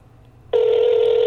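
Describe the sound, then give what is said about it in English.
Ringback tone of an outgoing telephone call. After a brief quiet moment a steady, mid-pitched tone starts and holds unbroken to the end, with no voices. “Two rings. I'm betting it will go to voicemail. Three rings, and it's going to go to voicemail.”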